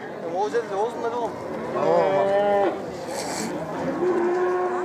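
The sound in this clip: A calm cow moos several times, each call drawn out and low with a wavering, slightly bending pitch, separated by brief gaps.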